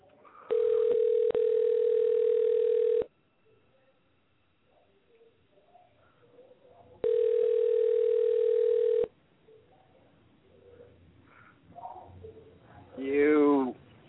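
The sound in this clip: A telephone rings twice, each ring a loud, steady electronic tone lasting about two seconds, with faint voices murmuring between the rings and a short warbling sound at the end.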